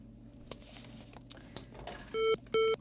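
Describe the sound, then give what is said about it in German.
Two steady electronic telephone beeps sound near the end as a call is put through to a radio caller, after faint clicks and rustling. “Wir haben einen Anrufer. Ah, okay. Ich werde mal versuchen, durchzustellen.”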